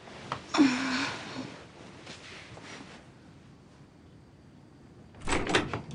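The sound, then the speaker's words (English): A bedroom door at a parents' house swings shut with a soft thud near the start. A quiet stretch follows, then a brief burst of rustling movement near the end, with no talk. “closes her bedroom door”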